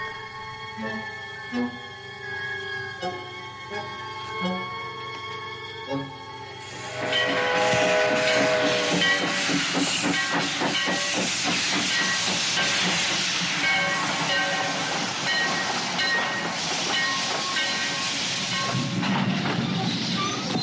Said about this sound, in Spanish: Al día siguiente, Tector espera la llegada del tren en Vinegarún.